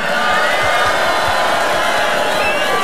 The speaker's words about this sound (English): Everybody, please put your hands up in the air and make some noise for the incredible Odd Mob.